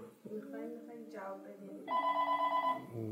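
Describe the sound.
Telephone, a cordless handset, giving one short steady ring tone right after someone speaks.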